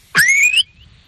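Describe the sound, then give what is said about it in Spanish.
One short, sharp whistle from a shepherd commanding sheep to stop, a high piercing tone that rises slightly and holds for about half a second, loud and alone. “Ahora a la oveja le quiero dar una orden de que se pare y no ande y no pase todo donde están, y le habría un silbido muy seco”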